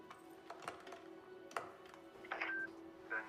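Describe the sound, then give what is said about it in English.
Telephone buttons are pressed to dial a number: a few faint, irregular clicks over a low steady hum, then two short high beeps. “takes it and dials a number.”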